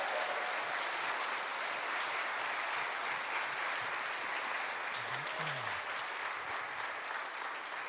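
An audience claps steadily and loudly to welcome a pastor at a church service, a dense wash of applause that holds for about eight seconds.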